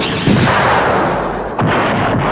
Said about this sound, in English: Activating hindsight cannons.